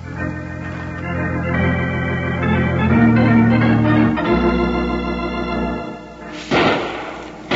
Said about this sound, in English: Hey, wait a minute. There's more than one gun working in that cabin.